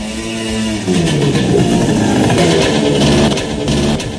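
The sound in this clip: A motor scooter engine running on illegal fuel makes a loud, continuous, rough buzzing drone. Its pitch swells just after the first second and then holds steady with an uneven, rattly texture.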